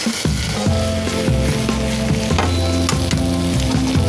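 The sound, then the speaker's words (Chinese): Steady, loud sizzling of duck heads frying in oil to make shrimp oil, a continuous hiss of bubbling fat running the whole way through without pause or talk. “鸭头去熬一个虾油”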